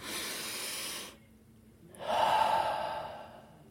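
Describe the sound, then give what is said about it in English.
A deep breath taken as a pause between stretches of talk: a soft rushing breath, a brief silence, then a second, slightly louder and longer breath with a faint hum, heard alone. “let me take one breath just to pause.”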